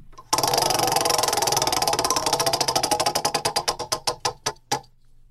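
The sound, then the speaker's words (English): A prize wheel spun by hand, ticking rapidly at first, then slowing as the clicks grow more widely spaced until it comes to rest. “All right, here we go. I'm going to spin the wheel.”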